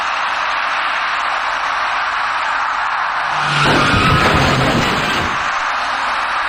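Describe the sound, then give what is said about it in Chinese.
Car noise and a short skid from a white passenger car braking as it strikes a cyclist at a city intersection at about 3 a.m., a louder burst of roughly two seconds rising over a steady hiss. “由于存在盲区，一辆白色小客因为躲闪不及，把骑车人撞翻在路面上。”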